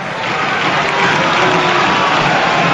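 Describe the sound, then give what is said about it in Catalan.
Stadium spectators near the corner flag applaud Espanyol's Pablo Piatti during a match against Granada, a broad crowd rumble of clapping that swells a little after the first second and holds. “que rep els aplaudiments del públic d'aquella zona pròxima al córner.”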